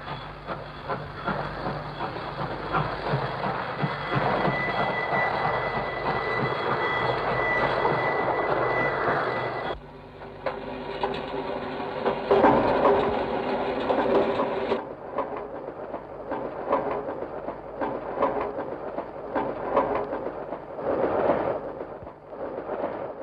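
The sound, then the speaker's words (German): Recorded railway train sounds are edited into an early musique concrète study: rhythmic mechanical chugging and clatter in abruptly spliced sections, one carrying a steady high whistle-like tone, the last section thinner and quieter. “Mit dem Stück Etude pour Chemin de Fer, Studie über die Eisenbahn.”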